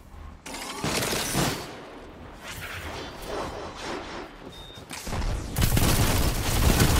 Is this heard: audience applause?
no

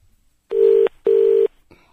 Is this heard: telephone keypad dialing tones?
yes

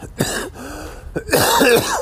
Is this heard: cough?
yes

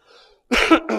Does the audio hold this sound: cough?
yes

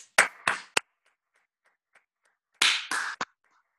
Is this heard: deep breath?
no

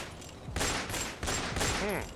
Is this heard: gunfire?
yes

